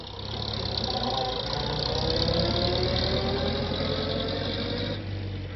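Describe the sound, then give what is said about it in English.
A car engine drones steadily as the car drives off down a drive. The low, even rumble holds at moderate loudness throughout, and no one speaks. “As John drove her off down the drive”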